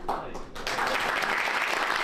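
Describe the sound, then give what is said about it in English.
Applause around a cabinet meeting table greeting a new leader: a few faint claps give way to a dense, steady burst of clapping that holds to the end, with a voice briefly heard at the start. “And a round of applause for the new boss, as Andy Burnham, having briefly invited the cameras in, emphasised what he wants to be seen to be focusing on.”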